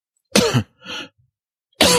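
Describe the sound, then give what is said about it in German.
A man coughs in a few harsh, loud bursts separated by short silences, the middle one softer and breathier than the others. “Ich huste.”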